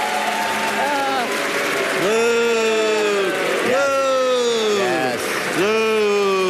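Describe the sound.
Canned applause plays steadily throughout, a dense wash of clapping with sustained cheering voices riding over it.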